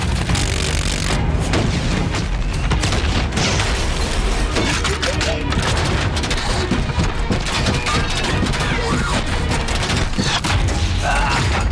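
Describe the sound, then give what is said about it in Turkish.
Rockets exploding amid gunfire: dense, loud, continuous bursts of booms and rapid shots overlap without a break. “Ateş! Roketler yolda.”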